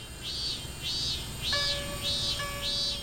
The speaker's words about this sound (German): Hört sich die Eschenzikade im Mittelmeerraum eher quäkend an, erzeugen manche japanische Zikaden ein metallisches Schrillen, das an eine Schleifmaschine erinnert.